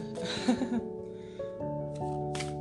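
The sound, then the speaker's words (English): A stack of cards is shuffled in a brief riffling flutter, followed later by a second short shuffle, over a soft sustained tonal background. “shuffling up my cards here”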